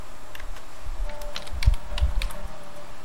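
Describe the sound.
Typing a folder name on a computer keyboard: many light, irregular keystroke clicks tapping in quick succession, heard alone with no talk.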